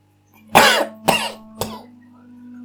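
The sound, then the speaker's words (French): A person coughs three times in short, harsh bursts, each a little quieter than the one before. “Quand tu tousses, comme ton ami Renardo a toussé”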